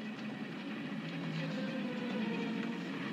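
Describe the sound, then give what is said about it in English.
A car is driven faster and faster, its engine a steady droning hum with a low tonal growl underneath that grows slightly louder toward the end. “You're driving faster and faster so that you can get into the village”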